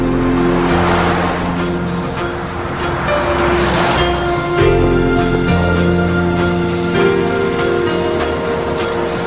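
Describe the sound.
A Land Rover driving on a road gives a loud, steady engine drone with tire and road rumble. Its pitch shifts partway through, and no one talks.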